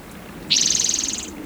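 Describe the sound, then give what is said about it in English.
A song sparrow sings one rapid, high-pitched buzzy trill of evenly repeated notes, lasting about a second, fairly loud and alone. “song sparrow”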